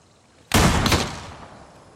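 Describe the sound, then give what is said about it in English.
A single rifle shot during shooting practice: one sharp, loud crack that bursts out suddenly, then a long, rumbling tail that fades away slowly. No voices are heard. “Your shooting is good. Do it again. Sight the lowest part of the V, cheek resting against the stock.”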